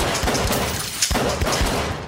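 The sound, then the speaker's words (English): Gunfire indoors, a real gun shot through a wall during a mock robbery prank: many rapid, sharp cracks in quick bursts over a rumbling, booming background. “Gun's real though.”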